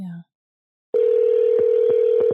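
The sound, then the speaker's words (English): A phone's ringback tone while placing a call: a brief low beep, a short silence, then a steady, continuous mid-pitched tone that holds unbroken to the end, with no talk. “I noticed that last time the recording wasn't on, so the ringtone wasn't recording. Now the ringtone's recording.”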